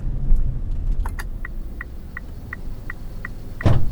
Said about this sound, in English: Now, join me for this Uber ride.